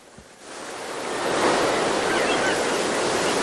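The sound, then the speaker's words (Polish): Sea waves break on a shore during a June long weekend on the Polish coast. The surf swells from a soft hiss into a broad, steady roar that holds to the end. “Szum morza, śpiew ptaków i tłumy turystów.”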